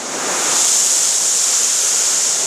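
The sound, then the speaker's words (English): Water rushes during a filter backwash at a water treatment plant, as sprayers flush water backward through the filter. It makes a loud, steady, hissing roar that holds evenly throughout. “it will start to do a backwash, which is just send water backward to send these solids back into the plant.”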